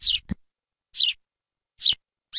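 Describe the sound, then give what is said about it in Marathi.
Sparrow chirping: short, bright, high chirps repeated about once a second, each a quick isolated burst with silence between, fairly faint, with a soft low thump after the first. “ए चिवताई, ए चिमणे, तुझं काय जातं वे चिवचिवायला?”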